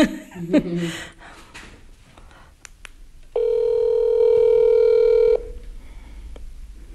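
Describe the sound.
A telephone line gives a steady, unbroken tone for about two seconds during a call being placed, cutting off abruptly. Before it come quieter voices and light laughter, and after it a low background hum remains.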